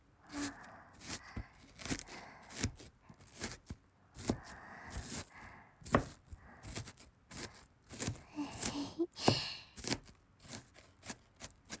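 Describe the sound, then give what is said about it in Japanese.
Onions being chopped with a knife while vegetables are prepared for cooking: many quick, faint, irregular cutting taps and crisp slices in a steady stream throughout. “私、個人的に玉ねぎの音が一番好きかも。”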